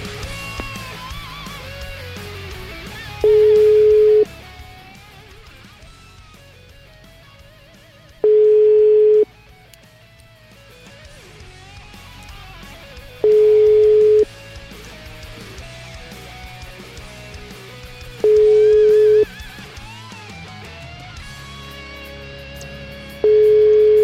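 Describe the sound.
Ringback tone of a phone call going unanswered: five steady beeps of about a second each, all at the same mid pitch and evenly spaced roughly five seconds apart, over a quieter, busy background.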